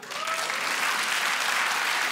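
Audience applause at a stand-up comedy show swells quickly into a dense, steady wash of clapping that stays loud and even for about two seconds.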